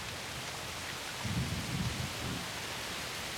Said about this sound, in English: walks out into the night air where it's raining heavily